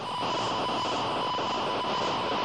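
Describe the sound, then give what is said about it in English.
Telemetry signals sent from an orbiting geophysical observatory satellite that studies the Earth: a loud, steady wash of hissing static with a faint fixed tone and slow wavering, continuous throughout with no voices. “These sounds are being transmitted by OGO, our third orbiting geophysical observatory, which was sent aloft last June to study the Earth.”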